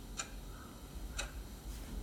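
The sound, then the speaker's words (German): Wall clock ticking in a bank office, quiet sharp clicks spaced about a second apart over a faint steady background hush. “Das Ticken an der Wanduhr ist das lauteste im Raum.”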